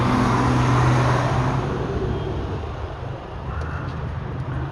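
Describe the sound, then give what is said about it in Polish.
Jeeps wait with their engines running before an expedition drive, making a continuous low rumble with broad, hissing road-like noise that eases slightly and then holds steady, without talk. “Nasze jeepy czekają. Bagaż już wyjechał.”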